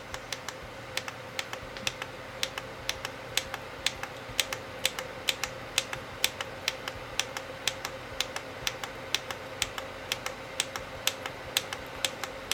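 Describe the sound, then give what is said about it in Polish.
Repeated presses of the plus button on an air conditioner give many sharp, evenly spaced clicks in a steady rhythm over a faint continuous hum. “Ja teraz naciskam przycisk plus”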